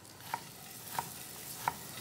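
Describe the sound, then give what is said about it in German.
Finely chopped nuts are tossed and stirred with butter in a pan: a faint, steady hiss broken by three light, evenly spaced clicks. “Wenn man das schön klein schneidet, braucht man das auch nur kurz schwenken.”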